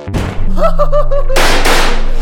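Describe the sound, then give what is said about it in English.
A flashbang grenade goes off in a video game: a loud, harsh burst of noise that holds to the end, after a short thump and some brief tonal sounds. “Flashbang.”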